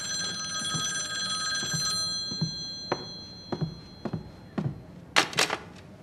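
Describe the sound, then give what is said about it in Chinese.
A telephone rings with a steady electronic tone for about two seconds, then a series of sharp clicks follows. “稍等一下，我先去接个电话。”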